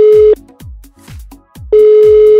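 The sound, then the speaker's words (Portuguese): Telephone call tone heard while dialling a number in Brazil: a steady, loud low beep, broken by a silent gap filled with a few soft clicks and thumps, then the same tone sounding again. “Vamos ligar agora na tora, como se diz em BH. Tipo, direto, bate pronto.”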